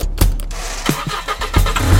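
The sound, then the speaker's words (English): A car engine hums low and steady while driving, with a few sharp knocks and thumps rising briefly above the drone. “driving over to Neil Casey's house.”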